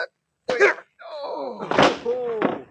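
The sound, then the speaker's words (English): A punch to the jaw as a radio drama sound effect: a couple of heavy, thudding blows amid groaning, strained voices in a scuffle. “you got him right on the point of the jaw”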